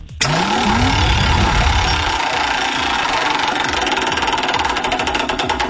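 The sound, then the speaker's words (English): Prize wheel spinning in a ticket giveaway game: a brief low rising whoosh, then a dense, steady run of rapid clicks that continues loudly to the end, with a short voice at the start. “Let's spin the Wheel of Fun and Bill Burr tickets up for grabs.”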